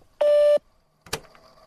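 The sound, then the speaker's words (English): A voicemail beep, a single steady mid-pitched tone lasting under half a second, followed after a short pause by a brief click and faint noise. “Don't leave your name or number, just leave me a secret. You'll have 3 minutes at the tone.”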